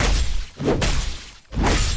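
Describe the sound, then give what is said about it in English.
A hatchet smashes and shatters things in three loud, harsh crashing bursts, each a broad splintering noise, separated by brief dips. “Right up behind him with a hatchet. Smash, smash, smash.”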